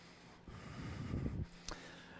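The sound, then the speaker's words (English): A single Ujjayi breath drawn through the nose, voiced softly from the throat. It is a hushed, rasping rush lasting about a second, quiet and alone. “Generate Ujjayi breath in and out of your nose.”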